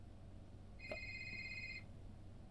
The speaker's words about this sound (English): Suddenly, the phone starts ringing from the other room,